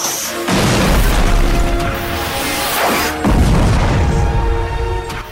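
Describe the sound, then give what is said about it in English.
Rockets fire toward fences and explode in a series of big blasts, making a continuous loud, rumbling roar with heavy booming bursts that swell near the start and again midway. “Several more rockets fire towards the fences and vaporize the pile of feasting zombies amidst a series of big explosions.”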